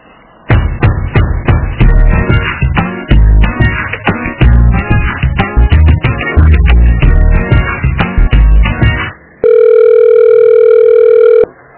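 A steady telephone line tone sounds during a call transfer. It comes after a loud stretch of busy, rhythmic thumping and tapping, then holds flat and unbroken for about two seconds.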